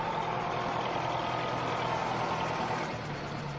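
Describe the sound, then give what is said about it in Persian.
Engine of a Khavar truck driving off, a continuous broad rumbling drone that holds steady and eases slightly in level toward the end, with no voices. “ماشین توقف میکنه و حاجی از اون پیاده میشه و خاور میره.”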